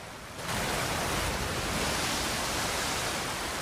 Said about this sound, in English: A waterfall, a torrent of white water gushing over rocks into a pool below.